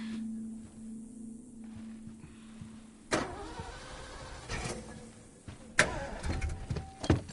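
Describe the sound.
A car engine starts after a low hum, with two sharp clunks followed by a rough, uneven mechanical rumble and rattling.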